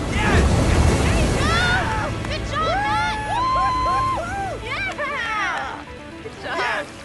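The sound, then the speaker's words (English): Ocean waves roll and break as a surfer rides along the face of a wave, a broad rushing roar of water heard beneath louder music throughout. “He rides along the face of the wave. Matt wobbles, then regains his balance.”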